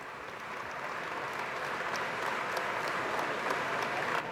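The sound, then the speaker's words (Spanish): Faint, steady applause from citizens waiting outside Murcia Cathedral at a funeral, a continuous patter of many hands that builds slightly and holds to the end. “Los aplausos de muchos ciudadanos y ciudadanas que están esperando en el exterior de la Catedral de Murcia.”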